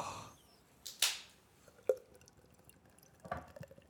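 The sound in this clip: A can of Guinness cracks open with a sharp snap and a short burst of hissing fizz, followed by faint liquid sounds and a softer rustle later on.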